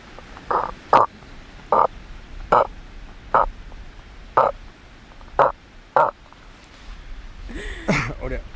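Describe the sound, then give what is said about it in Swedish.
A person imitates the mating call of a male cod, which grunts while swimming belly to belly with a female, producing a regular series of short, clipped, low grunting pulses with brief gaps between them. “Men när de parar sig och simmar buk mot buk, då låter hanen så här. Och det här är en riktigt bra hane.”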